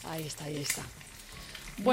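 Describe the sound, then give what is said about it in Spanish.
Eggs sizzle and spit in hot frying oil as they cook into lace-edged fried eggs. A steady crackling hiss runs beneath people talking over it. “y ahí mira, mira el chisporroteo. Si no suena así, no consigues un huevo de puntilla”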